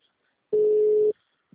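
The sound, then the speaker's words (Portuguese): Phone ringback tone while placing a call: a single short, steady electronic ring at a mid pitch, alone in near silence. “agora para fazer a ligação, por favor.”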